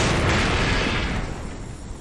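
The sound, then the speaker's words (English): Explosion sound effect for a plunger-triggered blast destroying a railway bridge in a haunted Western setting: a loud, dense roar that fills the whole clip and slowly fades. “So you hit the plunger down and there's this huge explosion.”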